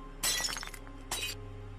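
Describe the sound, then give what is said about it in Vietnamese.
A glass cup slips from a hand and shatters on the floor. A loud crash of breaking glass with tinkling shards is followed by a second, shorter burst of fragments. “Cái cốc đang cầm trên tay tuột ra, mảnh thủy tinh rơi vỡ tan tành.”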